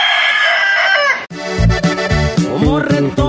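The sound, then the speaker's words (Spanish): A fighting rooster crows loudly and proudly after winning a fight, delivering one long, strained crow in the opening second. Other tonal sounds follow it. “cuando un gallazo canta orgulloso pregonando que ha ganado”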